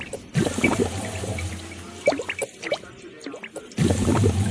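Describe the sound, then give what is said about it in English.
A toilet flushes with a loud rush of water that breaks off, gives way to a stretch of talk, and then returns. “Hear that noise? That's obviously a toilet flushing.”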